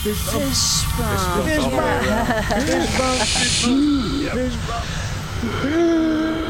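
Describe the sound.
Gas hissing out after a release button is pressed: a short burst of hiss, then a steady, bright hiss lasting about two seconds, heard under people talking.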